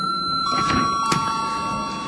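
Electric bell ringing in a parliament chamber before a vote, a steady, continuous high ringing tone that holds evenly for the whole clip over a soft background hiss.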